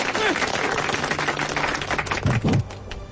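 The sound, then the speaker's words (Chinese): Villagers applaud at a New Year opening ceremony, a dense, loud patter of many hands clapping that continues steadily before breaking off abruptly near the end. “大家鼓掌”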